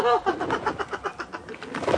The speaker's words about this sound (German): Danke, vielen herzlichen Dank, liebe Taube.